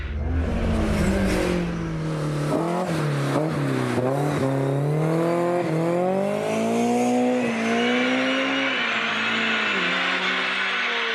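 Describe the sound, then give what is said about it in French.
A car engine revs quickly to high rpm, jumping from about 6,000 to 8,000 rpm in a fraction of a second. The drone is loud and continuous, with its pitch swinging up and down repeatedly and no voices. “Franchement, il monte dans les régimes à une vitesse absolument incroyable. Il passe de 6 à 8000 tours en à une fraction de seconde.”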